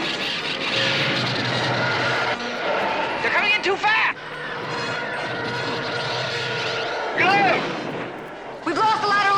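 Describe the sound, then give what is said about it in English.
Attacking Imperial fighters in a space battle fire blaster-like shots, with loud rumbling bursts and several sharp sweeping whooshes that rise and fall in pitch. “The Falcon accelerates into space, but now Luke and Leia must fight off attacking Imperial fighters. Here they come!”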